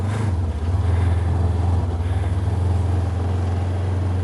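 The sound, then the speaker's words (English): Steady low engine drone from an ATV four-wheeler on a test drive, a deep, even rumble with a constant pitch that holds throughout without pauses. “After testing out the four-wheelers, the 23-year-old found the ATV of his dreams. This got some power.”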